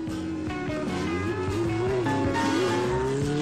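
A police motorcycle crosses a rickety footbridge, its engine a loud, continuous drone with a wavering pitch that rises and dips, and faint clattering knocks mixed in.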